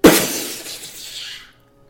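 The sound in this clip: A magical spell breaking apart sounds as a sharp glassy shatter with a sudden loud onset. A bright, tinkling scatter of fragments follows and fades away over about a second and a half.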